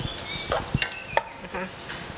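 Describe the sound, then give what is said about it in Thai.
Minced pork cooks in a pan with a little water added to keep it moist, while a utensil stirs it. There are a few soft scrapes and clinks over a faint, low sizzle. “อาจจะเติมน้ำในการลวนได้นะคะนี่ใส่น้ำไปเล็กน้อยนะคะหมูจะได้ไม่แห้ง”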